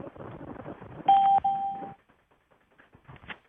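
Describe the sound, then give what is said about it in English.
An entry notification chime rings out as two clear, steady electronic tones, a shorter one followed by a slightly longer one, sounding alone. “I'm going to take off the entry sound.”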